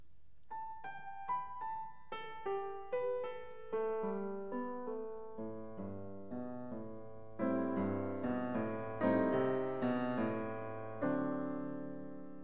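Scott Joplin's waltz Bettina played on a tonal instrument as a flowing melody of sustained, decaying notes over a lilting pulse, growing fuller and louder about halfway through.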